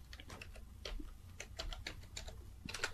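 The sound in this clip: Rapid typing on a computer keyboard: many crisp, irregular key clicks in a steady stream with a few louder strokes, and no voices.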